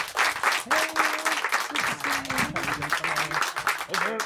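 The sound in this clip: Audience applause and cheering as two actors, Lily Rabe and Hamish Linklater, are welcomed onto a stage, with brisk, dense clapping throughout and voices whooping over it.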